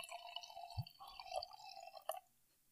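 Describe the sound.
Sake pouring from a 720 ml bottle into a glass: a steady burbling liquid gurgle that wavers in pitch, with a few bubbly pops, stopping abruptly near the end.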